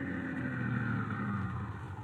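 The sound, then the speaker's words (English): A car engine runs as the car is pulled up in front of a house. It makes a steady, low, even rumble with no talk over it. “he was pulling his car up in front of the house where he was to meet the man with a foreign accent”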